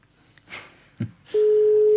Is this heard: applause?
no